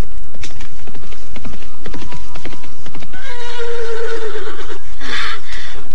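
A horse from a riding party neighs in a loud, high, wavering whinny that ends in a sharp squeal, after a run of hoof clops and rustling.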